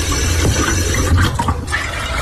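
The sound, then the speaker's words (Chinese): Water pours into a soup pot holding fried white hyacinth beans, coix seeds and ginger, a continuous rushing splash that runs steadily throughout with no talk. “我们落完煲汤料就开始加水，”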